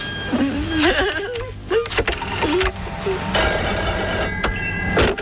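A telephone rings while a doctor is being called back, with warbling, shifting electronic tones followed by sustained steady ringing tones, broken by brief gaps.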